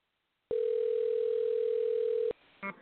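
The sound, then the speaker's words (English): A telephone dial tone heard while placing a call: a steady, single-pitched electronic hum that holds evenly for nearly two seconds, then cuts off abruptly and is followed by a brief click. “Another caller wasn't there. I'm going to try another call.”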